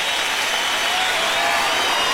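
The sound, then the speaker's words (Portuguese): Audience applause at a live event, a dense and steady wash of many hands clapping. It stays at an even, fairly loud level for the whole stretch, with no voices standing out. “Salva de palmas, vai já, Carlos Rodrigues!”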